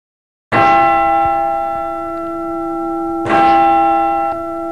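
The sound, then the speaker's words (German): Tower clock bells strike the half hour, heard from inside the clock mechanism that drives three of the tower's eight bells: two loud strikes about three seconds apart, each leaving a long, steady ringing hum. “So klingt es, wenn man quasi mitten in der Turmuhr steht und gerade der Halbstundenschlag erklingt.”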